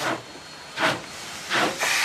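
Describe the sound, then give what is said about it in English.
Steam hisses and chuffs from a huge black Union Pacific steam locomotive as its drivers start turning and it departs Nampa down the track for Boise: a few loud, spaced bursts of steam over a steady low hiss. “The drivers slowly start turning the huge wheels, and the gigantic black engine, with a lurch, begins down the track for Boise.”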